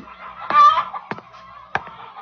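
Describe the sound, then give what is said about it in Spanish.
Agitated chickens squawk and cackle in a henhouse: a few sharp, loud outbursts, the first the longest, with quieter clucking between them. “Esta vez hay agitación en nuestro gallinero.”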